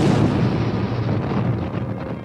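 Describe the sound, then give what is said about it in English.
A massive explosion of a fictional device as a starship jumps to warp speed, heard as a loud, dense roaring rumble that holds steady for the whole stretch with no separate bursts. “The Enterprise jumped to warp speed just as the Genesis device exploded. With a surge of power, the mighty starship left the explosion far behind.”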